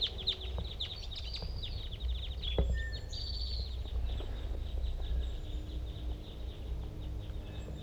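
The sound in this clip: Crossbills of the large race call from a flock that includes a female and a male, all giving the same call type. Many short, sharp chip notes crowd the first few seconds, then thin out over steady low background noise.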